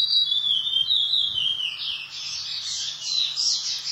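A songbird sings at a songbird contest, giving a continuous high, thin whistle that first glides slightly downward and then breaks into rapid warbling trills, heard alone.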